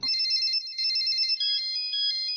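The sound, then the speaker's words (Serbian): A mobile phone ringtone plays a bright, high, pulsing electronic melody, loud and continuous on its own. “Kad zazvoni mobilni telefon.”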